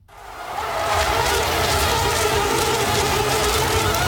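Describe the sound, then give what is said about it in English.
Mosquitoes buzzing around in a dense, steady whine that swells up over the first second and then holds loud and unbroken to the end, with no voices. “that's a sound that might be familiar to many of you, the sound of mosquitoes buzzing around looking for a target to bite.”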